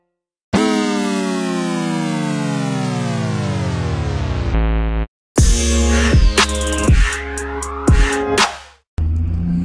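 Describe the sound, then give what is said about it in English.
Amplified car engine noise: a loud harmonic engine tone that slowly falls in pitch for about four seconds, then after a brief break, choppy bursts of revving with pitch sweeps, ending abruptly. “with all the amplified car noises”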